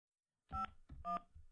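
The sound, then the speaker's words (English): Two telephone keypad tones sound while a number is being dialed, each a short, bright beep separated by a brief gap and a faint thump, with no voices. “Did you put a 1 before it? I dialed 9. 9 and then you put the 1.”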